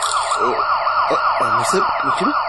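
A police car siren wails loudly and continuously, sweeping rapidly up and down in pitch with a low vehicle rumble underneath.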